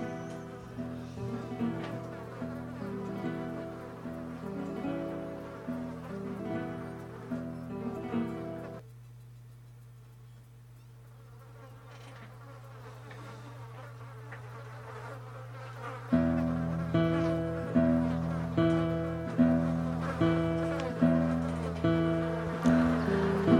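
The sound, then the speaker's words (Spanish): Flies buzz in a steady, droning hum. The sound dips quieter partway through, then returns louder with a regular pulsing rhythm. “y hoy entramos volando entre las moscas.”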